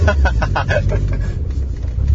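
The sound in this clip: The engine of a manual car rumbles low and steadily as the clutch is worked to drive off after a stall, with a voice talking briefly over it at the start.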